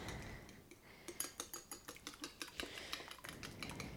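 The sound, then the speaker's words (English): A small whisk or dinner fork beats two cracked eggs in a bowl for pecan bread, giving many quick, regular metallic clinks and taps in a steady rhythm, fairly faint throughout. “And then get yourself a small whisk or just a dinner fork and beat that up.”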